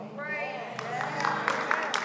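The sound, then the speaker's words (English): Congregation clapping in a church service: several sharp hand claps, loosely spaced, come in under a voice that is talking. “Can I get a few more of y'all to clap like you've been through something?”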